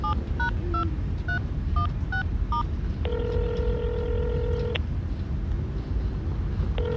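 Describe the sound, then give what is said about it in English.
A telephone number is dialed on a touch-tone keypad: a quick run of about seven short beeps, followed by a longer steady line tone and the start of another, all over a constant low rumbling background. “Call him. I'll dial here.”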